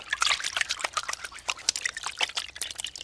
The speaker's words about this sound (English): Every day I wash my hands.